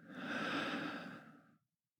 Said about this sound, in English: So, take a nice full breath. In through your nose, and out through your mouth.